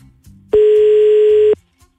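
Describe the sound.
A single steady electronic ringback tone from an unanswered phone call to Germany sounds once for about a second, loud and even, then stops. Only faint low background noise comes before and after it.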